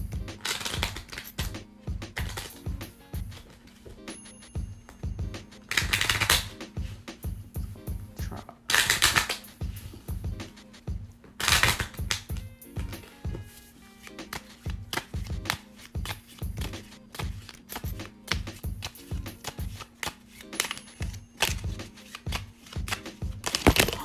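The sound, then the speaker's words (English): A deck of cards is reshuffled by hand after too many cards fell out, producing many crisp riffling and rustling bursts in an uneven rhythm over a long stretch. “To reshuffle, too many cards fell out.”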